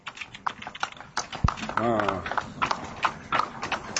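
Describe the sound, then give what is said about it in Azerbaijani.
Horse hooves clip-clop steadily on a village road as a horse pulls a cart carrying wood. The dense, rapid clopping runs throughout, and a voice is briefly heard over the hoofbeats. “At çox yaxşı heyvandır.”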